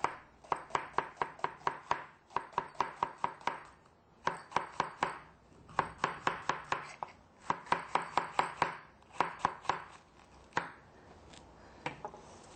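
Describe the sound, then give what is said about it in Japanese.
Knife thinly slicing bitter melon into pieces about 5 mm thick, with rapid, crisp, evenly spaced strokes. The strokes come in several quick runs separated by short pauses, and no one speaks. “そして、薄くスライスしていきます。だいたい5ミリぐらい。”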